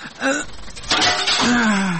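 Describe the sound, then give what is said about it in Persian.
Door glass is smashed with one sharp shattering crash, followed by a short wash of breaking, ringing fragments. “تو باش که من همی شیشه رو میده کنم اگه بیدار شوه.”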